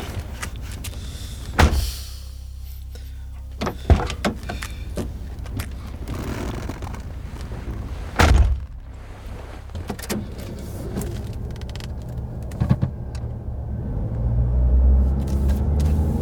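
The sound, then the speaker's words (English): Car driving: a low, steady rumble from inside the vehicle, punctuated by a few sharp knocks and clicks, with the deep engine drone swelling louder toward the end. “He drove for over an hour without saying anything.”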